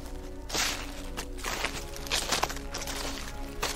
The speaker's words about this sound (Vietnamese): Những tiếng bước chân vẫn đều đều, lẹp xẹp.